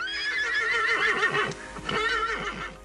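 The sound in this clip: A horse pulling a carriage through snow whinnies twice in quick succession. Each neigh is loud, with a quavering, wavering pitch.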